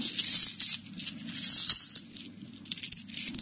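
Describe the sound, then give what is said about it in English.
Small metal objects, including a penknife, rattling in a pocket, with a bright continuous jingling and clinking that comes in uneven bursts and brief lulls, with no voices. “what you got in your pocket that makes all that rattling? Just sailor things, I guess. Let me look.”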